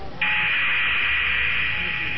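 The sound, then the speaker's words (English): Radio static from a solar flare rasps over a covert comm link inside a character's head. A bright, steady hiss starts abruptly and holds at even loudness for about two seconds. “A burst of solar flare static rasped inside Bosk's head like a swarm of Nimgorian saber wasps.”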